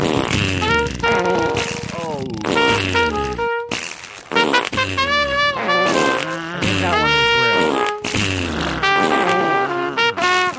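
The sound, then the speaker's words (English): Fart sound effects are played over and over: many loud, buzzy, pitch-sliding blasts in rapid succession, separated by a few short gaps. “play it again, play more fart, play more fart. Farting it up.”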